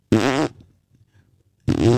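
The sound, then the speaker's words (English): A fart sound effect plays through a Cybertruck's rear-bumper speaker as its turn signal: two short, buzzy, wobbling blasts separated by a quiet pause of more than a second. “And you can make your turn signal a fart.”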